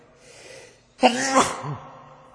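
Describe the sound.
A single sneeze during an Arabic religious lesson: a sudden loud burst, then a short voiced tail that fades quickly. Faint background sound comes before it.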